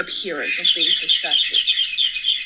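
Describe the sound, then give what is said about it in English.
Birds chirp busily outdoors, with continuous high twittering and squawks running under a person who is talking. “I don't know if you guys can hear those birds right now, they're, like, going crazy”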